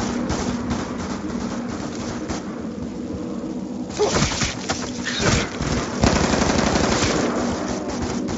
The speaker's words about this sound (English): Shooting at him does something? Yeah. Same thing.